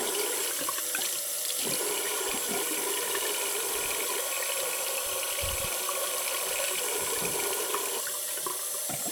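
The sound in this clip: Warm water rinsing hair during a shampoo, a steady even hiss of flowing water that runs continuously without any voices.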